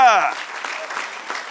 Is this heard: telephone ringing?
no